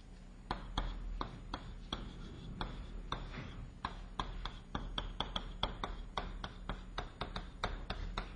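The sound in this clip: Handwriting of an equation during a physics lecture: many sharp, irregular taps and short scratching strokes, faint and quick, with small pauses between bursts.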